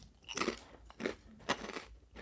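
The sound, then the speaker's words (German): A crispy vegan snack being crunched and chewed makes several quiet, crackly bites in an uneven rhythm. “ich knusper hier mir so ein bisschen einen rein nebenbei”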